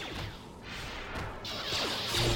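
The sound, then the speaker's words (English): Thrown lightsabers whoosh through the air and strike objects in a video game, a dense run of swishing sweeps mixed with crashing, smacking impacts that stays fairly loud and builds slightly toward the end, with no talking. “gonna hit some stuff with some lightsaber throws. And lightsaber throws sound fun enough. You just keep throwing those lightsabers.”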